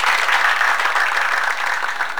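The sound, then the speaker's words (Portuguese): Steady applause from a group: dense, continuous clapping that stays at an even, fairly loud level from start to finish, with no talk over it. “Mais palmas!”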